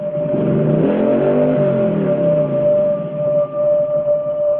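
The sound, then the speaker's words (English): Motorcycle engine revving as the throttle on the hand grips is turned, heard in slow motion as a loud, steady, low droning tone that holds throughout with slight wavering and no talk. “In slow motion, Evil turns the throttle on the hand grips.”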